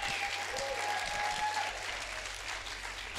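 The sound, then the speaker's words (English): A faith-talk audience clapping their hands as urged. The applause is steady and dense and holds at an even level throughout, with a low hum underneath. “Come on, clap your hands. Like, why don't you clap? Because it's almost going to be unfair. Come on, clap.”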